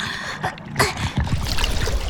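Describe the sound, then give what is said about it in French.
Water splashing and trickling as a fisherman's dip net is plunged into seawater and lifted back out, a choppy wash of splashes with runoff dribbling over a steady noisy background. “Ah, le voilà qui plonge son épuisette dans l'eau. Il la remonte.”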